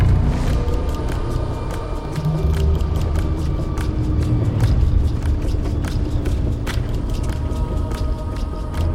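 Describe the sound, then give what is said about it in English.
A car speeds past a shed at night, its engine a steady low rumble with scattered light ticks and knocks running through it. “she grips the steering wheel. Her face tenses. She speeds past the shed.”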